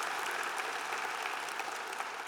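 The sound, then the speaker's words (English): Audience applause fills an evening church service as a crowd claps steadily and evenly for the whole stretch, with no talk over it. “Give them a big hand clap.”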